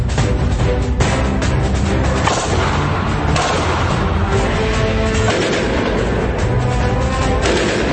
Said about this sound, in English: So this is a Glock 18C machine pistol. This fires about 11 rounds.